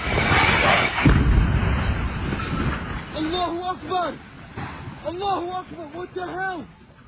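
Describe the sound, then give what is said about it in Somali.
The explosion of a crashing plane: a heavy, loud rumble with a sharp thump about one second in, then fading as people speak over the lingering roar. “dhawaaqa qaraxa ka dhashay burburka diyaaradda ayaa argagax ku riday dadka Ameerikaanka ah ee ku sugnaa goobta”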